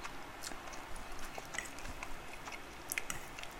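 Chewing of thin 1.4 mm spaghetti: many small, soft, wet mouth clicks and squishes come in an uneven rhythm over a steady faint background hiss, with no talking.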